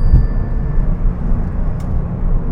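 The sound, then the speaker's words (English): A car engine drones as it accelerates in fifth gear, a loud, steady low rumble with little change in pitch and no talking. “I guess I just gotta press harder on the gas pedal. Fifth gear.”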